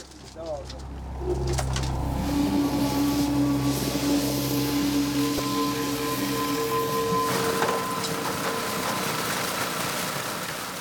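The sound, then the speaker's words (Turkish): A suction pump starts up near Snake Island: a mechanical drone swells in after about a second, then runs steadily with a whining hum and tonal lines, easing slightly near the end, while voices talk over it. “Emici pompayı çalıştıralım.”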